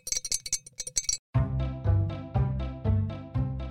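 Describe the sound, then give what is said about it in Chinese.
A yellow ceramic jar clinks in a quick, bright run of many sharp taps, then gives way to repeated sustained pitched tones with a steady rhythm. “这是猪妈的一个宝贝坛子，这个坛子是陶瓷做的黄色瓶子哦”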